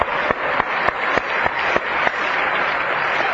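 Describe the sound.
A student body applauding new students at a college welcome: loud, sustained applause from many hands, with a steady beat of rhythmic claps cutting through the dense wash.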